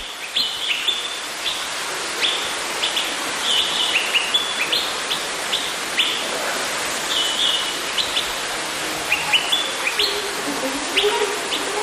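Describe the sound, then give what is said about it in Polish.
Birds in an aviary chirp and tweet while busy feeding in winter. Many short, high chirps are scattered over a steady hiss of background noise, with no people talking. “ptaki dostały jeść, zajmują się jedzeniem.”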